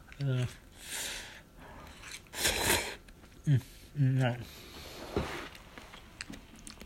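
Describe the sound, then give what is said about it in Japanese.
Instant ramen being eaten at home, with a few broad, noisy slurps and chewing sounds alternating with short voiced sounds. “家で仕事も早終わりして、インスタントラーメン食べてます”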